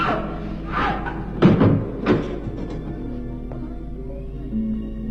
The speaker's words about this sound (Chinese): 进来，关上门。